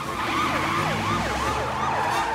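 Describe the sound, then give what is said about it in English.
Police car siren during a chase, wailing in rapid rising and falling sweeps that repeat several times, loud and continuous over a low vehicle rumble. “The police car gives chase and the soccer mom chases the police car.”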